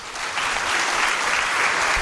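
Audience applause at a Catholic religious gathering, greeting three priests present to hear confession: dense, steady clapping that holds at an even, fairly loud level throughout, with no voices over it.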